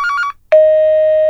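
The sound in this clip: A telephone rings unanswered with a brief warbling trill, then after a short gap a steady, sustained electronic tone sounds alone.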